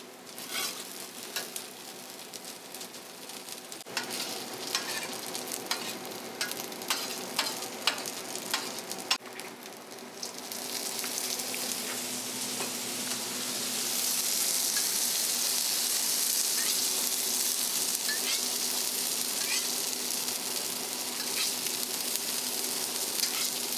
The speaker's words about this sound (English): you let it toast your ground spices till the water evaporates. Then of course the second layer is adding the tomatoes or adding the vegetables.